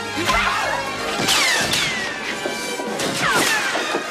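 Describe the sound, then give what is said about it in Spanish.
Sharp whip-like cracks and smashing hits as a stick strikes a guard in a film fight scene, several loud blows and swishes following in quick, irregular succession. “Un guardia agarra a Willy. Tapón le golpea con un palo.”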